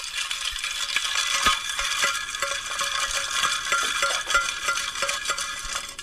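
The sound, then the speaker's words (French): Ice clinking and rattling as a cocktail is stirred in a glass: many quick, bright clicks in a steady, continuous rhythm for about six seconds, with no voices. “Alors, on mélange.”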